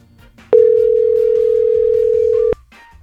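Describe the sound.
Telephone ringback tone on an outgoing call: a single steady, mid-pitched tone that sounds for about two seconds over a quiet background.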